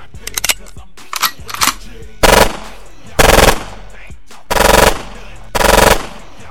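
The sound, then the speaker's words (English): Machine-gun warning shots as a sound effect: a few scattered single shots, then four loud, sustained bursts of rapid automatic fire separated by short pauses. “So let me fire some warning shots real fast.”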